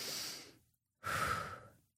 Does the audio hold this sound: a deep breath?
yes